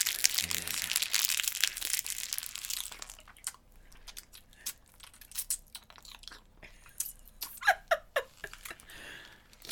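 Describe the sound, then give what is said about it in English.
Someone chews Gushers fruit snacks, with many faint, irregular crunching and squishing bites, louder and denser at first, then sparser bursts of chewing. “We're going to try some of these Gushers.”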